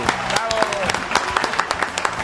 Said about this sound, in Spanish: ¡Un aplauso para él! ¡Bravo!